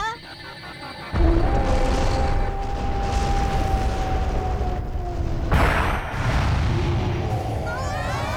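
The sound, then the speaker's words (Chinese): A cartoon smoke cannon fires in an animated film with a loud, broad roaring blast and a thin steady whistling tone, followed later by a second sharp surge of noise. “烟枪炮发射”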